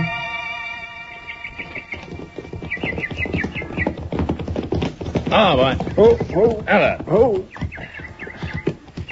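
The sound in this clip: Horses' hooves clip-clop in a quick, uneven patter as riders set off on horseback, mixed with sustained tonal sounds and a voice heard briefly over the hoofbeats.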